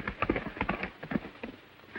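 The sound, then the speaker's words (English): Hoofbeats of a horse galloping out of a ravine, a quick, uneven clip-clop of soft thuds repeating steadily throughout at moderate loudness. “Meanwhile, Zanty gallops out of the ravine.”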